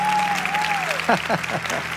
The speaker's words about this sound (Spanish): tenía ganas de aplaudir. Aplauda, pues.